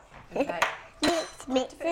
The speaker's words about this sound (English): Right, I better get a spoon and you can mix it in, yeah? Mix.